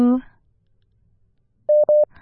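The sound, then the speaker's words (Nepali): WhatsApp call connecting tone: two short, steady mid-pitched beeps in quick succession, following a brief clipped voice at the start and a stretch of near silence. “कोही हुनुहुन्छ WhatsApp कलमा, उहाँलाई स्वागत गरौं।”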